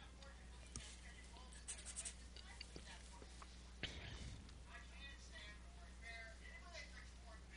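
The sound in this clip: A pen faintly scratches as a square is crossed off a game card during a movie. Short, soft scribbling marks sit under quiet talk and whispering.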